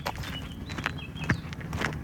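Footsteps of people walking past an artificial grass field in a corner of a sports park: a few distinct, spaced steps over a steady outdoor background, with no talking.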